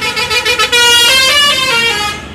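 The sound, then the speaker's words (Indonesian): A loud bus horn honking on a road past wide rice fields. A few short toots come first, then one long, sustained, blaring blast that stays strong before easing slightly at the end. “membuat kaget saja suara klakson bis itu, kata Banu.”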